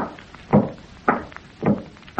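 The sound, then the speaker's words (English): Heavy wooden thumps imitate the footsteps of a ghost with a wooden leg walking around upstairs: three slow, evenly spaced knocks, with another just beginning as the sound ends, and no voices. “And then I'll walk around upstairs like a ghost with a wooden leg, like this.”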